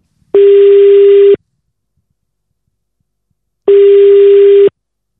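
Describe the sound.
A telephone call rings out with two ringback tones, each a steady mid-pitched electronic buzz about a second long, separated by a long silence.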